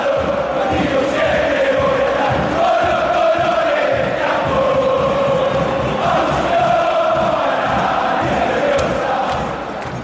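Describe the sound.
San Lorenzo football supporters singing a long chant together, a loud, continuous melodic crowd song carried by many voices that eases off slightly at the end.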